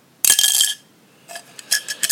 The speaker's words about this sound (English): Or it wasn't actually a contact lens. It was a pin dropping in.